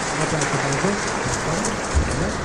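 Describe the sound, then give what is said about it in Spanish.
An audience applauds at a car rally event, a dense, steady patter of clapping that holds through the whole moment, with a voice speaking underneath. “el público aplaude.”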